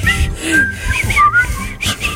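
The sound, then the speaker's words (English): Several people whistle a tune together in unison, a bright, sustained melody that climbs and dips in pitch, steady and fairly loud throughout with no talking. “Will you whistle with us? Yep, let's do it.”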